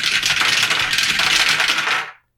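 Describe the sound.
Many dice rolled together in a game, a dense clattering stream of small hard clicks for about two seconds that stops abruptly into silence.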